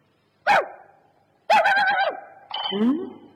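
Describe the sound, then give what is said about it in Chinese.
A wild dog barks three times: a short, sharp first bark, then two longer, rougher barks in quick succession, each loud against silence. “呸！这条该死的野狗！”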